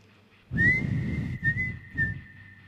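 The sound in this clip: A whistled TV theme tune: one high, clear whistle note is held almost steadily for about two seconds. It rises slightly at the start and sits over a low rumbling background.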